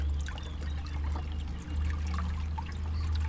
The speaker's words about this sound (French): Sur moi, je trouve que c'est un effet apaisant, là, le petit bruit de l'eau, voilà, et il y a beaucoup de gens qui partagent ça.